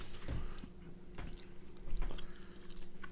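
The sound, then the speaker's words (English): Biting into a sausage with a snappy casing: a few faint, crisp snaps as teeth break the skin, followed by soft, wet chewing. “I didn't think there was going to be so much snap in this casing.”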